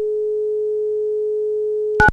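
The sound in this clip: A telephone tone after a call is hung up: one steady, low, pure hum held for about two seconds, then cut off by a brief, louder, harsher burst.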